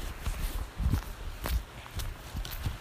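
Footsteps of someone walking across a field in white shoes: a steady run of many soft, dull steps with gritty rustle between them, fairly quiet throughout.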